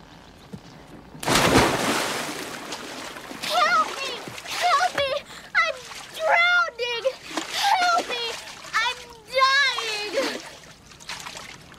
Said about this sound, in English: Amanda, jump in. Swim out a few yards and start drowning.